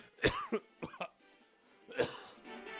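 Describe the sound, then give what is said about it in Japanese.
A sudden coughing fit, a person choking: several harsh, throaty coughs in a quick cluster, then a pause and a few more hacking coughs. “うわ、急にむせたね。”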